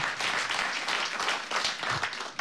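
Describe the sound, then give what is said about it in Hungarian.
An audience applauds two Nobel laureates during a New Year's Eve radio cabaret show. The sustained clapping is fairly faint, dense and slightly uneven in level throughout. “egy nagy taps azért szóljon nekik, hiszen ez egy csodálatos dolog”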